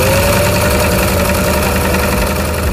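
A Singer sewing machine runs with a steady, loud mechanical whir and rapid rattling vibration that holds an even pace without pause.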